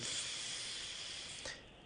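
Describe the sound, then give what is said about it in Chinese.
A long, deep breath drawn in through the nose during a breathing exercise, heard as a faint, steady airy hiss that holds for about a second and a half and then drops away. “深呼吸，每一口气都给它吸到肺部里，给胸腔吸满它，然后往小腹走，吸气”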